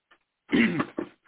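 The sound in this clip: A single throat clearing from an itchy throat: a short, guttural, raspy rumble broken into a few quick pulses, heard alone.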